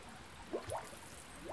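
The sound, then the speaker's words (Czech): Air bubbles rise in the collection basin of a mineral spring in the Mariánské Lázně spa area, making a few faint gurgling plops, each with a quick upward slide in pitch, over steady low background noise. “A když si konkrétně nahnu k té jímce u Rudolfova pramene, vidím bublinky vzduchu,”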